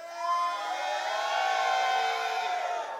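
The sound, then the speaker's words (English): A church audience shouts and cheers, a sustained roar of many voices that swells quickly and then holds loud until the end. “Just want to welcome all those Faith Victory Church guys. Shout for me.”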